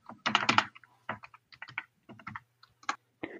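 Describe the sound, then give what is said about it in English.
Computer keyboard typing as a password is entered, with irregular bursts of crisp plastic key clicks separated by short pauses and quieter keystrokes, alone and fairly faint. “Sorry, my computer just went blank. I have to type in my password.”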